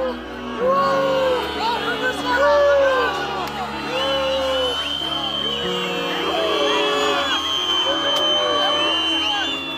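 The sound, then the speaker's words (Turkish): An angry crowd in Hatay boos and jeers the Health Minister, with sustained, overlapping low booing voices, shouts and hubbub forming a loud, continuous wall of crowd noise. “Kimsenin sallamadığı, hiçbir önem arz etmeyen bu kişiyi Hataylıların öfke dolu yuhalamaları karşıladı.”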